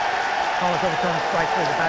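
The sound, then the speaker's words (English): Baseball stadium crowd roaring at Tiger Field during a challenged called third strike, a dense steady roar with talking clearly heard over it throughout. “The Tiger Field crowd drowning out Lance Barksdale.”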